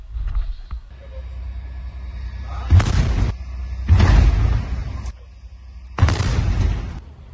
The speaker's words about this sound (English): Just a couple of bombs.